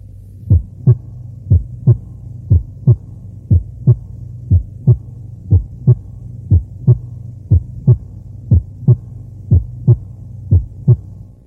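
Normal heart sounds from a medical teaching recording: a steady, regular run of paired low thumps in a lub-dub rhythm. The beats are evenly spaced and repeat many times over a faint low hum, with no talking.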